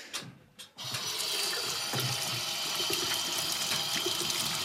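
Hands are washed under running water during cooking. After a brief quieter moment with a few small clatters, the flow starts abruptly and continues as a steady, even rushing sound to the end.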